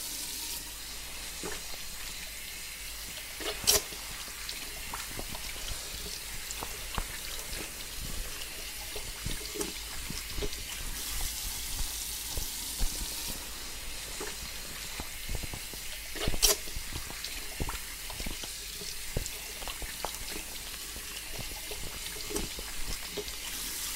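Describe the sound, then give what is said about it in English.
Water running into a hair salon sink as hair is rinsed: a steady, hissing, splashing flow that continues throughout, with two brief louder splashes. “let's take you to the sinks and wash that off, okay? Alright, so, dip your chin again, thank you. Alright, let's wash this down.”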